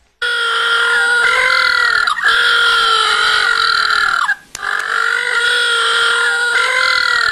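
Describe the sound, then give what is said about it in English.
Little blue penguins call in a loud, sustained chorus of harsh, nasal braying cries with rich harmonics, running almost without a break and interrupted by two brief dips before carrying on steadily to the end. “And if you're wondering what that sound is, that is the sound of little blue penguins.”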